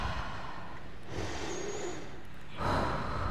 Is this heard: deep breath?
yes